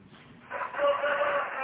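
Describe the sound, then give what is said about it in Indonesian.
A rooster crows once, a long, drawn-out call that rises out of faint background noise and holds steady to the end. “Dekat banget ayamnya enggak?”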